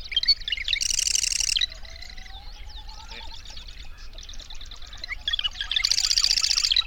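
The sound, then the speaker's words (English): A marsh wren sings. Loud, buzzy rattling trills open and close the passage, with softer, scratchy chattering notes in between. “the marsh wren,”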